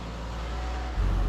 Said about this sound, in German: Lenkrad festhalten und jetzt fahren wir hier runter.